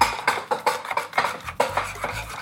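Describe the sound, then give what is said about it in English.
A spoon stirs cooked oats in a bowl, giving many irregular scrapes and light clinks against the bowl in an uneven rhythm, with no voices. “use a spoon to stir the oats and taste a small amount.”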